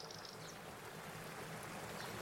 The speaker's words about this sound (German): Das säuselnde Wasser und die Singvögel untermalen den Augenblick.